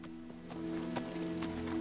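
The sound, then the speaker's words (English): Horse hooves as a rider follows a creek bed, a few faint, irregular clops over a steady low hum. “Rob follows the creek bed on his horse, a torch in his hand.”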